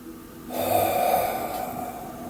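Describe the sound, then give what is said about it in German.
A slow, deliberate exhale during a relaxation exercise: a steady, breathy rush of air that swells in quickly and then tapers gently over about two seconds, alone without talk. “Und jetzt atme es ganz bewusst aus.”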